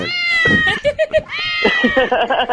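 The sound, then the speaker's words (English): Kittens meowing in a quick run of high, wavering mews, loud and insistent, with short clipped chirps in the middle and longer drawn-out cries before and after. “I had to take care of those kittens.”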